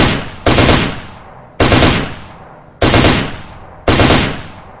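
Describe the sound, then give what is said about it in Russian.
Short bursts of automatic gunfire are aimed at a watchtower: four loud, sharp bursts, evenly spaced about a second apart, each trailing off in a decaying rumble. The tail of an earlier burst opens the sequence. “Чтобы его прикрыть на случай, если снайпер остался в боеспособном состоянии, я начал молотить короткими очередями по вышке.”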